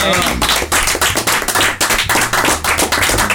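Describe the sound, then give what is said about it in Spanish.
Applause at a gathering, made of many sharp, distinct hand claps in a quick, uneven patter. It is loud and brief, with individual claps standing out clearly rather than blending into a smooth wash. “Yo quisiera pedir un aplauso para Nicolás Alonso.”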